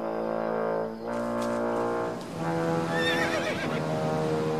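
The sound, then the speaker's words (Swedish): A horse standing on a shore neighs in a few loud, harmonic whinnies in succession, the later ones shriller and wavering in pitch, with no talk over them. “Säg mig, är det inte din häst så god där nere?”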